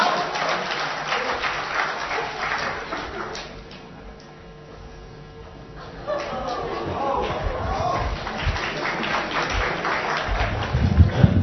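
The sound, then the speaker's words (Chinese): An audience applauds a comic stage duo with dense, crackling clapping. It fades briefly to a quieter lull, then swells again into sustained applause with a few louder thumps near the end. “谢谢，感谢您掌声鼓励。”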